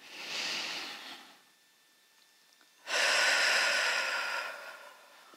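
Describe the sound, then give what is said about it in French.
A deep breath during a guided relaxation: a soft, hissing inhale, a quiet pause, then a louder, longer breath that holds steady before fading, with no talk over it. “Vous pouvez remuer le bout des doigts, le bout des orteils, prendre une profonde inspiration.”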